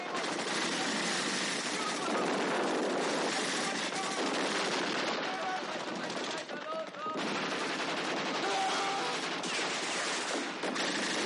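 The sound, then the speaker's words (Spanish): Dense machine-gun fire and rifle shots rattle nonstop in a battle from the 1970 war film Kelly's Heroes, as American soldiers open fire on German troops. The bursts are loud and tightly packed. “De pronto los americanos comienzan a disparar sin piedad sobre los alemanes, los cuales caen súbitamente al haberles sorprendido el tiroteo de improviso.”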